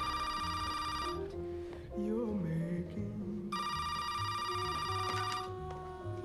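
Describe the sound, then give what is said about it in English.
A telephone rings in two long, bright electronic bursts with a pause between them, and faint speech is heard in the gap. “Well, my phone just rang and I answered it and somebody hung up”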